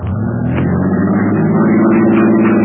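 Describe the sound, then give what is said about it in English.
A car engine runs with the car stuck in mud, giving a steady, loud low drone that holds evenly throughout with only slight shifts in tone. “No, don't start it quite so fast. Okay. Just start it real slow, see?”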